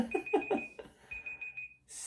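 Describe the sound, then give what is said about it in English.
A timer alarm rings with a high, steady electronic tone that pulses at first, then holds as a sustained beep before cutting off. “Oh, there's the timer.”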